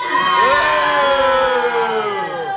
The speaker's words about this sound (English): Let's hear what the audience thinks of Mr. Crook!